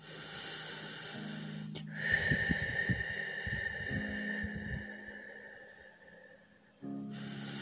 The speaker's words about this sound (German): Atme dreimal ganz tief und entspannt durch die Nase ein und durch den Mund wieder aus.